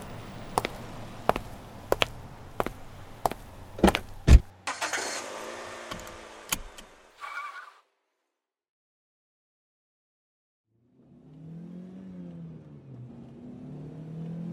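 An old car driving through the streets: several sharp clicks and knocks, then a short rushing engine surge that cuts off, followed after a silence by a low droning hum.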